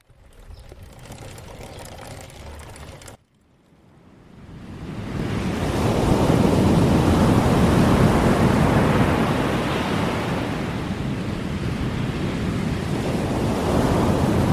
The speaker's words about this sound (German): das Schwarze Meer. Beeindruckend schön und viel besungen.